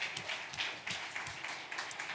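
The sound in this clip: Audience applause at the Edge Summit tech keynote: faint, steady clapping from many hands, even and sustained across the whole stretch with no talking.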